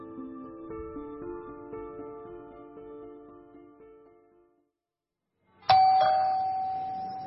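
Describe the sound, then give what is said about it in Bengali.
A doorbell rings at five in the morning in the outer room of a house, one sudden loud ding with a sustained ringing tone that slowly fades, after softer sustained tones die away into a brief silence. “কুমুদের বাবার বাইরের ঘরে calling bell বেজে উঠল।”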